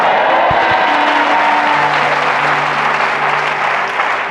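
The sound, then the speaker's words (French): Church audience applauding in acclaim: steady, loud clapping that runs throughout, with low sustained musical tones underneath. “Si tu as compris, donne un bon Amen. Acclame Jésus.”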